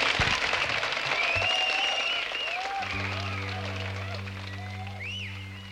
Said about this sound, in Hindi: तो आपके हर एक ताली हमारे लिए आशीर्वाद होती है. तो पहले से ही कह देते हैं, प्लीज तालियां बजाइए हर एक.